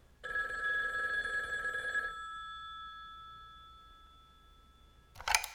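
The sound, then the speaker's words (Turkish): A telephone bell rings in one loud, sustained burst. Its tone lingers and fades slowly, and a brief clatter comes at the end. “Bu namussuz telefon önemli bir söz edeceğim zaman hemen başlar böyle.”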